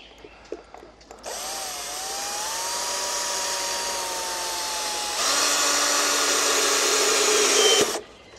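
A power drill whines steadily as it drives a self-drilling metalworking screw, the tone starting abruptly, holding for several seconds, then turning louder and harsher near the end before cutting off sharply.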